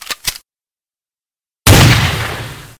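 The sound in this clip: A gunshot fires in a video game, a headshot. Two brief, quieter pops come first, then silence, then one loud blast with a long fading tail.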